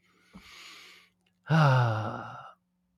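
A deep breath: a soft, airy inhale, then after a short pause a louder, voiced sighing exhale that slowly fades out.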